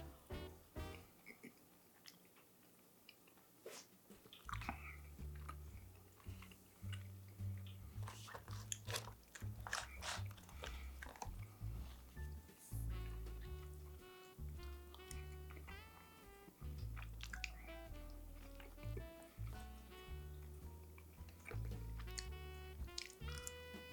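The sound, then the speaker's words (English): Biting and chewing on the first mouthful of a camping-style Christmas dinner: many crunchy, wet chews in an uneven rhythm, with occasional squishy sounds between them. “Okay, here comes the first bite. Let's go try this out.”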